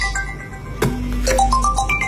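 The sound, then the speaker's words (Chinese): An incoming call sets off a phone ringtone, a short electronic melody whose notes step upward after a sharp onset. It plays fairly loud and steady over a low background hum. “这时，王大伟的老婆打来了电话。”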